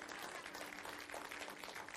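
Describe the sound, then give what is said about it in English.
Audience applause in a church: even, continuous clapping from many hands, faint but sustained throughout with no breaks. “And if you're going to clap, clap. We aren't playing golf right now.”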